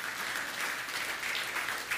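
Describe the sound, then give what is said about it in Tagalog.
Steady, sustained applause from a church audience clapping for the Lord during a service, dense and even with no talking over it. “Come on, palakpakan po natin yung Panginoon.”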